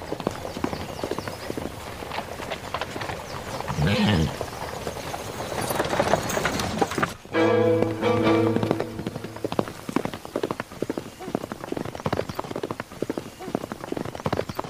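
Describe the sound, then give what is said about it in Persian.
Clip-clop of an approaching rider's horse: a steady, rhythmic run of many hoofbeats that continues throughout alongside other sounds, moderately loud. “سلمان سواری رو از دور میبینه که به اونها نزدیک میشه.”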